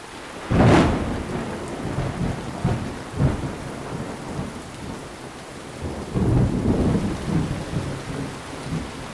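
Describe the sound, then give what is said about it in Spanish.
Steady heavy rain falls with rolling thunder, a loud crack and rumble near the start followed by further deep rumbles that swell again later over the constant hiss of the downpour. “ya se dejó venir la lluvia y se ve que es de la que moja”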